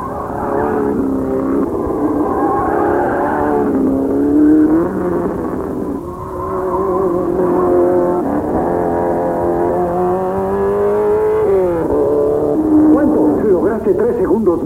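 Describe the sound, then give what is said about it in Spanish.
Race cars with Renault engines lapping at the 24 Hours of Le Mans, their loud engine whine sustained throughout, with the pitch swinging up and down as the cars rev and shift. “Por eso nos da tantos éxitos en las carreras. Aquí en Le Mans se impone la mecánica Renault.”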